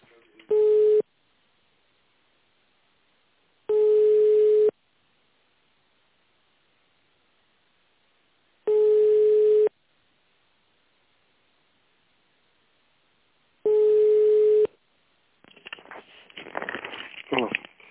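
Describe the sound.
Telephone line tone plays while a call is being transferred: four steady, mid-pitched beeps, each about a second long and separated by roughly four-second silences, followed by a burst of crackly, hissing line noise.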